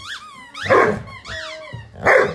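Labrador dog barking: a few loud barks mixed with higher yelping, whiny sounds, coming in short bursts with brief gaps between them.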